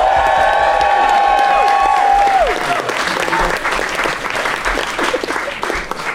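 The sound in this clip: Loud audience applause and cheering at a Christmas comedy debate show, where the crowd votes for a team by clapping: a sustained whoop rides over the clapping early, then dips in pitch and trails off while the applause continues.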